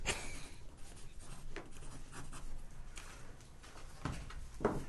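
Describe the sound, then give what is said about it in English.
Pen writing on paper, a faint dry scratching made of a series of short strokes, heard alone and quietly. “He's going to write it down.”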